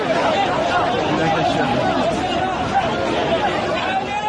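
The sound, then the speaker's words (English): A dense crowd of migrants streams off the beach into the streets of Ceuta, the Spanish enclave in North Africa, making a loud, continuous babble of many overlapping voices with no single speaker standing out. “This is the sound of some of those thousands as they came off the beach and headed for the streets of Ceuta on Thursday.”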